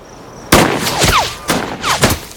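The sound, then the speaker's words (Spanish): Gunshots fired on command crack out as several loud, sharp reports in an uneven sequence, each followed by a short ringing decay. “Siguiente. ¡Fuego! ¡Fuego!”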